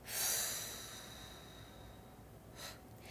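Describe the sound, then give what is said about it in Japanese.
A long breath is pushed out to empty the lungs during a relaxation breathing exercise done with a straight back. The faint airy hiss swells quickly, then tapers away, with a small puff near the end and no talking. “背筋伸ばして一度体の空気全部吐いていきます”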